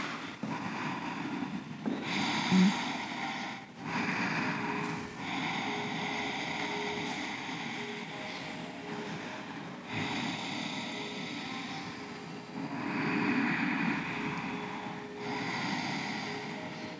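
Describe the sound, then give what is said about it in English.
Deep, slow breathing during yoga practice: a few long, airy breaths drawn in and let out in a steady rhythm, with short pauses between them and no talking. “Your body can rest here, and you can pull in many deep breaths, giving you more life force energy to get you through the rest of the practice.”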